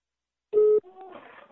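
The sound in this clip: One short, steady telephone ringing tone sounds while a call waits to be answered. Fainter, broken sound follows the tone.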